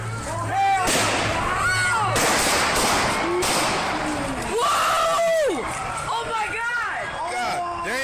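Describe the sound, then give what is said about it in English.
Gunshots fired by police officers while restraining a man on the ground, several sharp, loud bursts mixed with frantic shouting voices throughout. “Three officers shot Charlie Kanung five times, and then he died.”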